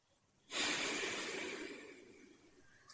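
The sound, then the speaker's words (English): A long exhaled breath during a standing guided breathing exercise: one loud, airy rush that starts abruptly and slowly fades over about two seconds, alone with no talking. “Exhale. Exhale. Nose or mouth, doesn't matter.”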